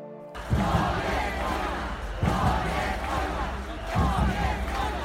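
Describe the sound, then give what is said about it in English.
A protest crowd in Liberty Square, Poznań, Poland, shouts in three loud unison bursts about two seconds apart over a continuous roar of crowd noise. “This is the sound of anger and frustration. This is war, shouts the crowd gathered at the Liberty Square in Poznań in Midwest Poland.”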